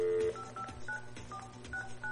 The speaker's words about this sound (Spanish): A ver, está marcando, vamos a ver si contesta